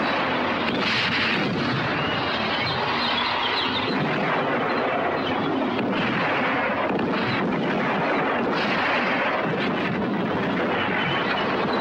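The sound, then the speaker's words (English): Tanks firing in a desert battle as the US Second Corps engages withdrawing German panzers: a dense, continuous roar of gunfire and heavy blasts that runs throughout, loud and without clearly separate shots. “Following orders, the panzers withdraw. However, Patton's Second Corps has now established a position across their line of retreat. Patton's tanks open fire on the Germans.”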